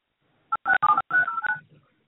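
Telephone dialing tones sound as a call connects: a quick run of a few touch-tone beeps, some short and some held longer, then a faint fading tail, alone.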